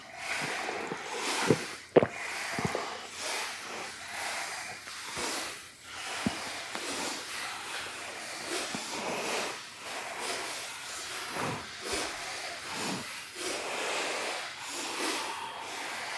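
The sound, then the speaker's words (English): Forceful audible breathing from a yoga-style breathing exercise, not breath of fire. Many hissing, snorting breaths repeat in a steady, roughly second-long rhythm at moderate loudness, with no speech. “A powerful breath that your neighbor can hear you, but not a breath of fire.”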